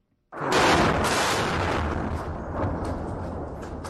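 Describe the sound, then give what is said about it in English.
An airstrike explodes close to military headquarters in Khartoum during fighting. A sudden, heavy blast gives way to a long, loud rolling rumble that decays only slowly. “That is the sound of an airstrike that hit close to military headquarters in Khartoum Tuesday morning”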